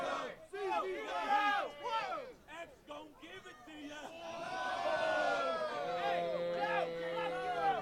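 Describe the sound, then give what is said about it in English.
A crowd of CZW wrestling fans chanting at a match: many voices shout in choppy bursts, then settle into a loud, sustained chant that holds to the end. “All four combatants have just sort of stood measuring each other, getting reactions from the crowd. And we got the CZW faithful here chanting along.”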